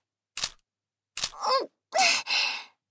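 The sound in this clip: Two sharp camera shutter clicks in a classroom, a little under a second apart, followed by breathy sighs and gasps from a voice.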